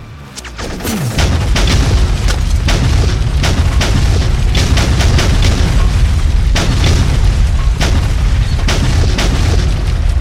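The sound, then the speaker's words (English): Air-dropped bombs explode on target in a continuous series of heavy booms with sharp repeated blasts over a deep, roaring rumble. The sound is very loud and saturated throughout, with no clear speech. “Good hits. Bombs on target.”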